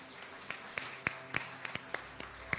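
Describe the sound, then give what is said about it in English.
A church audience claps to welcome small group leaders as they come forward to stand at the front: a sparse, faint run of separate, sharp claps at a fairly even pace. “Can you give them a great big hand as they come this morning? Let's just welcome them this morning.”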